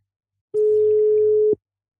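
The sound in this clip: A single telephone ringing tone as a call is placed, one steady mid-pitched beep lasting about a second, clean and alone with silence around it.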